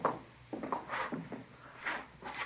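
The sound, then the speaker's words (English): A safe is opened with a few quiet clunks and rubbing, scraping movements of its metal door and mechanism, faint and separated by short gaps. “In the safe, right there. You can see for yourself it's all right. Would you mind opening it up just to be sure?”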